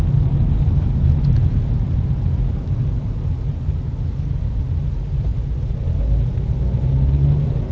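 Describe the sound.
Car engine droning while driving, an older, uneconomical car with about 54,500 miles on it, giving a continuous low rumble with road noise and no talk.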